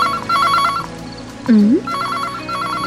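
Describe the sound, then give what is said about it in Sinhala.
A telephone rings in two bursts of bright, trilling electronic tones, with a short voice-like sound between them. The ringing is fairly loud and steady within each burst. “මේ වෙලාවේ කවුද අනේ call කරන්නේ? එන්න මම බලන්න.”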